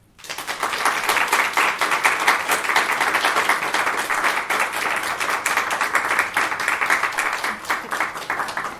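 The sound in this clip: An audience applauds to welcome a poet at a reading. Dense, even clapping starts after a brief quiet moment and stays loud and sustained for over eight seconds, with no voices above it.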